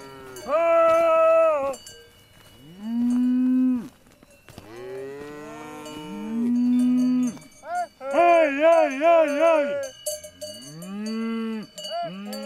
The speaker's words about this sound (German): Er ruft seine Hochlandrinder und sofort kommen die zottigen Tiere herbeigerannt. In großen Sprüngen rasen sie über steile Alpwiesen herbei.